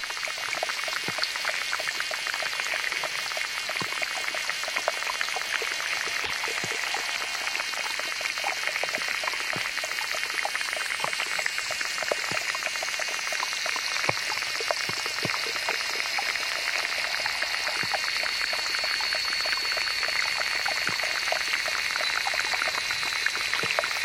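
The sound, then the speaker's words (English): Underwater insects in small ponds from Africa to New Mexico: a dense, steady mass of crackling ticks and clicks over a high, whirring buzz, unchanging throughout with no voices. “David Dunn gave this mix of recordings of underwater insects who inhabit small ponds from Africa to New Mexico.”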